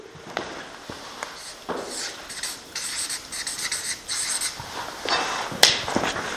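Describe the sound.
Writing a heading on a board, heard as scratchy strokes in a string of short, uneven scrapes and taps broken by brief pauses, with no voices.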